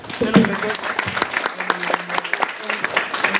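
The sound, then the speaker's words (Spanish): Audience applause at a comics discussion event: many dense, steady claps sustained throughout, with voices audible over the clapping. “Un aplauso.”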